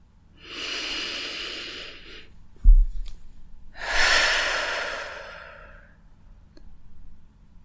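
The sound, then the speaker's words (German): Deep breathing during a guided relaxation exercise: one long, slow, airy inhale, then a pause with a soft low thump, then one long breathy exhale, and quiet after. “Und atme erstmal ganz tief ein und aus.”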